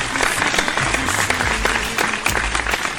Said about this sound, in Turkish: Kocaman alkışlar size.